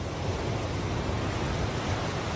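Sea waves washing continuously: a steady, dense roar of surf with no distinct breaks or swells, heard alone.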